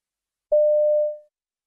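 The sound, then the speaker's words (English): One steady telephone line tone, under a second long, sounds clean and alone as a man phones his local newsagent's shop, then tapers off at the end. “You hear a man phoning his local newsagent's shop.”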